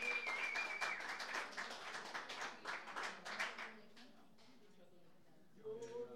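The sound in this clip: Faint audience applause greets the closing act of the night, dense clapping for about four seconds before it thins out and fades.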